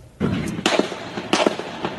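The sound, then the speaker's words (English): Gunfire in a police gun battle as Capitol Hill and Alexandria officers engage a lone gunman at a congressional charity baseball practice: a few sharp, loud cracking bursts spaced irregularly over a rumbling background. “An all out gun battle as Capitol Hill police and Alexandria officers engaged a lone gunman, 66 year old James Hodgkinson, targeting Republican members of Congress who were practicing for a charity baseball game.”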